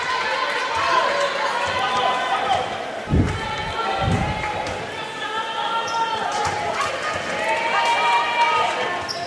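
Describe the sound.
A basketball is dribbled up the court by Northwestern in a college women's game against the Chargers. Several sharp, hollow bounces sound under a commentator's steady talk, along with footsteps and faint crowd noise.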